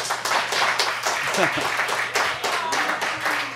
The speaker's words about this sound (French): Applaudissez.